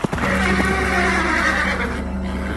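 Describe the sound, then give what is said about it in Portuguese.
A horse neighs in one long, loud whinny that begins sharply and holds a strained, quavering pitch for the full clip, with no voices heard. “Olhei e vi um cavalo amarelo.”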